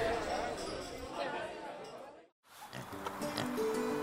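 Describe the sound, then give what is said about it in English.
Pigs, sows in a farm's livestock pens, grunt and squeal in a dense mix with human chatter. The noise breaks off into a brief silence, then the grunting and squeals resume. “now, over here is where we keep the bulk of the livestock. It's been a particularly good year for our sows. Their litters have been large and healthy.”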